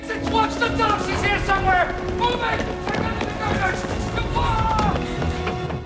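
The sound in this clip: Footsteps of a man running through a warehouse, a quick, steady patter of strides partly masked by loud dramatic music that plays throughout.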